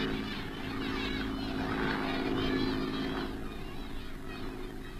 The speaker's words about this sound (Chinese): 快来看日本飞机，你看咱家。